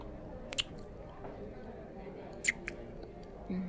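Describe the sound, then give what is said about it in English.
Two soft, wet kissing smacks at the entrance of a restaurant on a drizzly night, faint and brief, spaced apart over a low steady background. “You'd totally want to kiss me right now, here at the entrance of this restaurant.”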